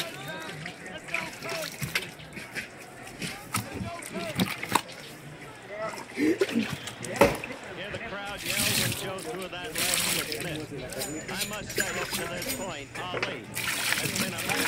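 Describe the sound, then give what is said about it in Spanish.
Water splashing and sloshing as salted food is rinsed to wash out the salt, heard under continuous conversation in Spanish. “Y ahí la enjuaga para que se le quite toda la sal. Sí. Y así está limpiecita.”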